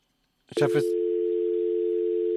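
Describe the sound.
A telephone dial tone after the phone line is cut off: a brief voice, then a steady, unbroken, loud tone that continues to the end.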